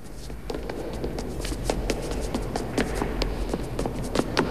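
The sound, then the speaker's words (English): Many quick footsteps hurry down a broad flight of steps past a kiosk, falling in a rapid, fairly even rhythm over a steady low hum. “hurries away past a kiosk and down a broad flight of steps”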